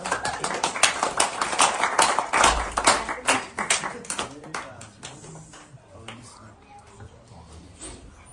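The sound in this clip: Hand clapping as a cue: many sharp, rapid claps in quick succession that gradually thin out and grow fainter toward the end.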